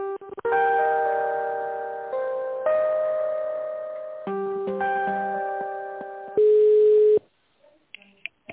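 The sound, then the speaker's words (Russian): Electronic telephone line tones while a call is being transferred: a series of steady synthetic notes that change pitch every second or so, ending in one louder sustained tone before the line goes quiet. “Здравствуйте, минуту я переведу.”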